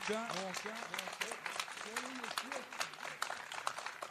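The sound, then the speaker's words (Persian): Rhythmic hand clapping keeps a quick, regular series of sharp claps going throughout while a voice talks over it. “8 ثانیه به عدد 8 کف مرتب بزن، محکم محکم محکم محکم”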